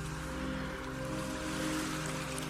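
An ocean wave washing in, a soft, steady hiss of surf that stays even and continuous.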